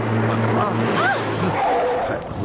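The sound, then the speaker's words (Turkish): A car skids past pedestrians crossing an Istanbul street, giving a few short, wavering tire squeals over a steady engine hum as voices murmur in the background. “Az kalsın üstümüzden geçecekti araba. Biraz yavaş sürün efendim. Yavaş sürün lütfen şunu.”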